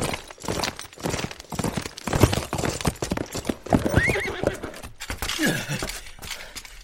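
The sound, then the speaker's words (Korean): A rider gallops on horseback toward Onyang, with steady, rapid clip-clop hoofbeats throughout and a horse whinnying partway through. “그가 잠시 온양에 머물러 있을 때 말을 달려 그를 쫓아온 사람이 있었습니다.”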